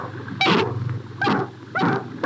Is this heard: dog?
yes